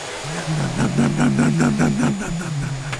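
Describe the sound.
A voice imitates a vacuum cleaner sucking up a Lego piece with a steady, low, droning hum whose pitch wavers and pulses slightly mid-clip before settling, held continuously for the whole clip.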